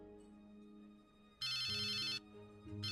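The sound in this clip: A phone ringtone sounds as a loud, bright electronic warble lasting under a second, then starts again right at the end, over a low steady background tone.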